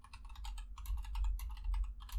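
Typing notes on a computer keyboard: a quick, steady patter of soft keystrokes clicking along on their own over a low hum.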